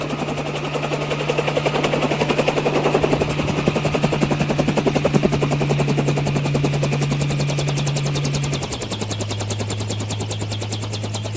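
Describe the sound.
Helicopter rotor blades chop in a rapid, steady, loud beat that continues throughout, over a constant low engine drone that drops slightly in pitch near the end.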